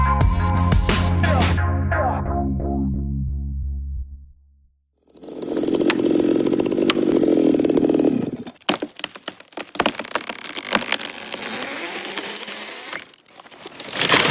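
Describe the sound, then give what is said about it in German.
Chainsaw felling an old giant rainforest tree in the Amazon: a whining, revving engine drone stops briefly, then the saw bites into wood with a steady grinding roar, followed by many sharp cracks and splintering snaps of breaking timber. “So klingt es, wenn ein alter Urwaldriese im Amazonas gefällt wird.”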